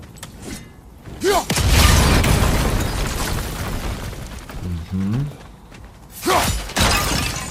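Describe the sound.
Objects smashing in a video game: a few loud, noisy crashes and shattering bursts, with a long crumbling rumble between them, set over steady game background sound.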